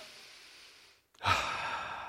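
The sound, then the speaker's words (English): A single deep inhale, loud and breathy, comes in abruptly after a quieter stretch of soft noise and a brief silence, then holds steady to the end. “Take a deep breath. No, you don't have to take a deep breath. Just inhale.”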